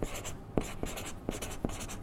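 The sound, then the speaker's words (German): The word Buchhalter is written by hand: faint, scratchy writing strokes punctuated by several short, sharper taps at uneven intervals. “Ich schreibe jetzt mal Buchhalter.”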